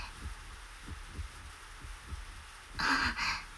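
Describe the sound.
A faint heartbeat sound effect beats as soft, low thumps repeating at a steady pace. A brief hissing burst rises near the end.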